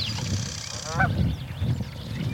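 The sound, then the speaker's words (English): Birds calling with faint honking cries, a few short calls rising briefly above a steady low rumble and hiss. “These birds were hitting in the mid-40s on our decibel meter.”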